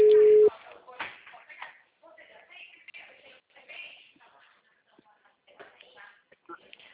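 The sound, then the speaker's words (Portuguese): Telephone line tone while a phone call is placed, one steady, loud beep at the very start, then people talking. “Preferi estar te ligando para falar com você pelo telefone.”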